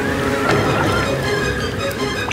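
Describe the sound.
Strong wind and rough water around a boat that is turning back, a dense, loud, steady roar of rushing air and sloshing waves filling the whole moment without a break.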